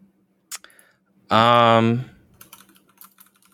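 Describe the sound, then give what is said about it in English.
Clicking and key tapping on a computer: a few scattered clicks, then a short stretch of someone talking, then many light, irregular taps that continue to the end. “I mean, I click my computer. I'm looking. I'll find it.”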